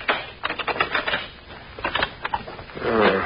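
Many dry, ratcheting clicks come from a combination lock dial as it is turned back and forth to open a safe. The clicks fall in quick irregular bursts at a steady, moderate level, with no voices.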